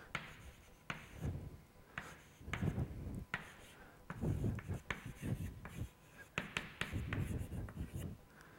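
Someone writing something down makes many soft, scratchy strokes in an uneven rhythm, with brief pauses between bursts. It stays faint throughout.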